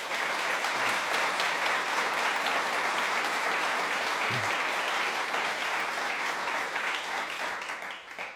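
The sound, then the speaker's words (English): Audience applause welcoming a guest at the Cheltenham Jazz Festival, a dense, sustained crowd of clapping hands that holds steady and then thins out at the end. “please give a Cheltenham Jazz Festival welcome to Django Bates.”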